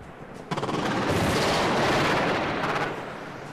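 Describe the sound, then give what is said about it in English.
Gunfire and bombardment in Baghdad as the Iraq invasion began form a loud, sustained roaring barrage. Rapid bursts of repeated shots break through near the start and again near the end before the din eases. “Invasion of Iraq was beginning.”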